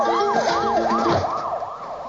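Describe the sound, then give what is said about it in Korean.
A police patrol car siren wails in fast, repeating rising-and-falling sweeps, loud and continuous over a steady background drone. “때마침 순찰차의 사이렌 소리가 들립니다.”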